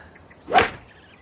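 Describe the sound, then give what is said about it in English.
A single sharp swish as a golf ball is driven off the tee, a quick airy whoosh that swells and cuts off within a split second, heard alone against a quiet background. “Full of confidence, Bingham drove his ball high over the trees”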